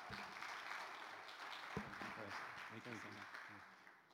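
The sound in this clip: Audience applause in a church welcoming a missionary speaker: dense, steady clapping that fills about four seconds, with a voice speaking over the clapping partway through.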